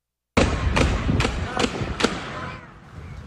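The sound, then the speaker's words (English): Gunshots in witness video of a mass shooting at an outlet mall near Dallas, with an AR-15 style rifle: five sharp, loud, evenly spaced cracks in quick succession, followed by a lingering rough, noisy roar. “That is witness video capturing the chaos as shots rang out and people ran for cover.”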